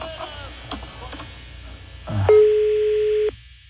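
Ringback tone on an outgoing phone call to a beauty salon: a single steady electronic tone lasting about a second, after a stretch of faint line noise.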